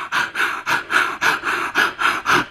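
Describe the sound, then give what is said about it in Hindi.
Bhastrika pranayama: many rapid, forceful breaths in and out through the nose, each a sharp, airy rush in a quick, even rhythm with short gaps between them, loud and with no talking. “फिर आप भस्त्रिका है जिसमें आपको जो है वो हम लोग मना करते हैं, जिनको हाई ब्लड प्रेशर वगैरह होते हैं उनके लिए हम मना करते हैं कि आपको बहुत तेजी के सांस साथ लेना है और फिर छोड़ना है।”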